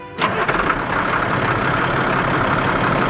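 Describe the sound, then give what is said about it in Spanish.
Steady engine idle from a grain truck parked beside a granary during a cold-day corn harvest: a low, even mechanical rumble that rises abruptly near the start, then holds constant and fairly loud to the end. “En el granero contiguo, un transportista de grano estaba estacionado con su motor encendido.”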